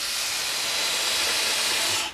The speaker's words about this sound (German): Da koche ich jetzt diesen Fenchel kurz an.